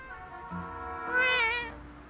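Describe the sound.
A cat's single drawn-out meow, moderately loud and alone without speech, its pitch climbing and then sliding back down.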